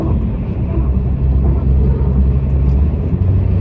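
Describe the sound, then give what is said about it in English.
Steady low road rumble of a car driving on a highway, a dense, even roar with no breaks and no voices. “I'm driving and talking, so that's probably not a good thing to do. But, you know, going for a drive can honestly be helpful. Maybe not on the highway like I'm doing now.”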